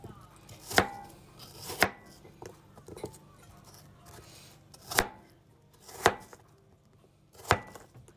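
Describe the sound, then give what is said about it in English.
Knife chopping peeled food into pieces of roughly even size, the way vegetables are chopped. Several sharp, hard knocks land at uneven intervals, with softer cuts between them, and no voice is heard. “Not slicing them, I'm chopping them like I would vegetables. And keep them roughly the same size, they'll cook at the same rate.”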